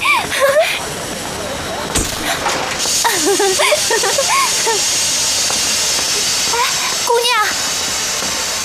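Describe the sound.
Steam hisses steadily and loudly from a steam train about to depart, a broad continuous rush of noise with voices talking over it.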